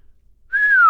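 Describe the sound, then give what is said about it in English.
A jinn whistles a single clear, sustained note that starts abruptly halfway through, holds bright and loud, then slides slowly downward in pitch; no one speaks. “Said the jinn, whistling.”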